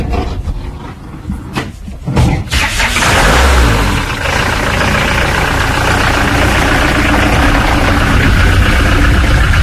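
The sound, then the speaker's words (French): An old gendarmerie van's engine starts up, turning over briefly before catching, then settles into a loud, steady running idle that continues to the end. “On va à la maison d'un coup de camionnette de gendarmerie, là, vite fait. Allez.”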